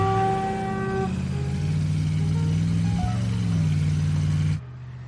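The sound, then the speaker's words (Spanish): A young man's convertible overtakes another car on an interstate and accelerates with a grumbling engine. The sound is a steady, fairly loud low drone with sustained tonal notes at the start, and it cuts off sharply near the end. “El joven del descapotable adelanta a la mía y acelera refunfuñando.”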